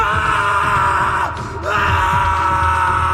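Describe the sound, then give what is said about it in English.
A person in a laboratory screams in pain: a loud, harsh, sustained cry that dips briefly midway and then resumes at full strength. “a shooting pain throughout your entire body disables you for a moment. You panic and let out a scream”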